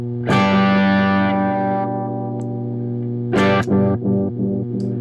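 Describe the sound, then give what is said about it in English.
A dark, heavily filtered analog bucket-brigade delay effect sends two struck notes into murky, softened repeats that smear and decay between the attacks, with a hazy, warbling tail. “It sounds, yeah, pretty analog. Okay, so that's pretty dark. Pretty tapey. No, it's not tapey. It's a friggin' like a Bucket Brigade. Well, it's very filtered,”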